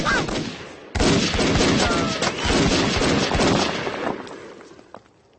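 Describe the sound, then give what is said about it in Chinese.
Heavy gunfire in loud, dense, continuous rapid bursts that last several seconds and fade slightly toward the end. “停止射击！”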